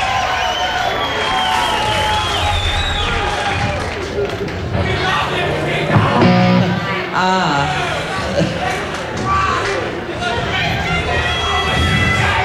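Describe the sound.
A wild live audience cheering and shouting, a dense, steady roar of voices and whoops that carries on unbroken throughout.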